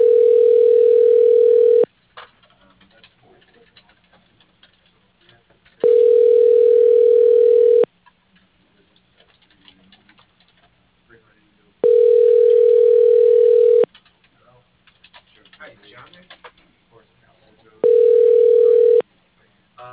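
A telephone ringback tone plays while a call is being transferred: four steady, mid-pitched tones of about two seconds each, the last cut short, separated by quiet gaps with faint line noise.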